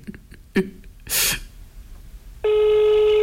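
A telephone ringing tone starts abruptly near the end and holds a steady, buzzy, harmonic-rich pitch. Before it come a few soft clicks and a short burst of hissing noise.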